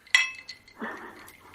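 Glasses of freshly refilled drinks clinking together in a toast: a single bright, ringing clink that fades quickly.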